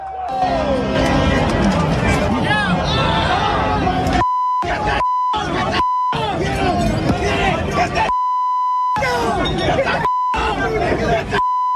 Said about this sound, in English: buses were torched, rioting in the streets, fighting galore.